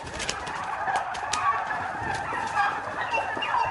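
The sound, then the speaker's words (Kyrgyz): A flock of meat turkeys gobbles, with several bubbling, warbling calls that overlap one another over a constant low barn murmur. “Эт багытындагы үндүктөрдү багууну бул жаш бүлөөгө туугандары сунуштаган.”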